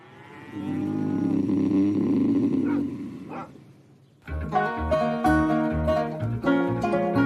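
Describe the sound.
Cattle on a farm, a bull mounting a cow, with a long, low, drawn-out moo-like bellow that sustains for about three seconds and then fades. Other tonal sounds follow.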